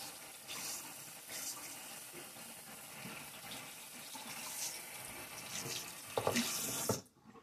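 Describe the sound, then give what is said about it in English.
Water runs from a tap as hands are rinsed under it. The faint, steady hiss carries scattered splashes, swells briefly near the end and then cuts off abruptly. “Finish rinsing your hands.”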